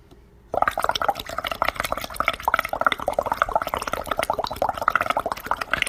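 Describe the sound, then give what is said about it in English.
A boiling cauldron, a creepy Halloween sound effect: dense, continuous bubbling and gurgling with many rapid small pops, starting after a brief quiet moment and holding steady and fairly loud throughout. “Boiling cauldron.”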